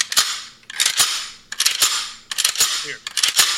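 A 9mm handgun's slide is racked five times in a row, each a sharp metallic click-clack pair, loud and crisp with short pauses between.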